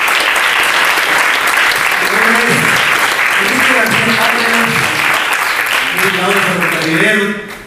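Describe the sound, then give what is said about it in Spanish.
Loud, sustained crowd applause fills a political congress, dense clapping that holds steady throughout with voices rising over it, then thins out at the very end. “Yo quiero un fuerte aplauso a todos los que estamos ahorita en este momento aquí celebrando este congreso.”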